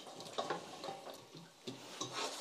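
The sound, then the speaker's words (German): Plums drop into spiced caramel simmering in a pot, making faint sizzling with a few soft clattering bursts and scraping sounds. “Gewürze sind drin, jetzt kommen unsere Zwetschgen da rein.”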